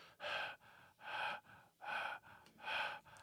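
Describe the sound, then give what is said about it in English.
Breathing close into a microphone: four heavy, evenly spaced breaths, each a loud, breathy rush with short quiet gaps between them, and no talk. “Maybe I shouldn't breathe into the microphone like that, considering it's so close”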